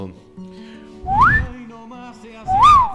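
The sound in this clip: Two human whistles, each a sliding tone: the first glides upward, and the second rises and then falls. A pause separates them, and both are loud and clear.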